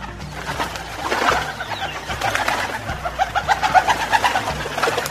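Pigeon or dove cooing in a string of soft, repeated pulsing calls that grow stronger and more regular toward the end, with no talking.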